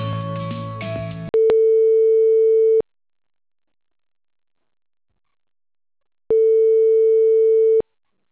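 Telephone tones during a call transfer: after a short burst of music, two long, steady mid-pitched beeps sound, separated by several seconds of silence.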